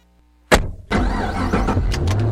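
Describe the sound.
A car on the ride home after a game: near-silence broken by a sharp thump, then a steady engine and road rumble that continues to the end.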